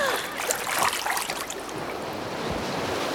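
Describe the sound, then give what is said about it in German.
Water splashing and churning as two swimmers dive under the surface in a children's radio play: a dense, steady rushing wash, slightly busier at first and then level, with no talk. “Als sie nahe genug herangeschwommen sind, holen sie tief Luft und tauchen. Jetzt!”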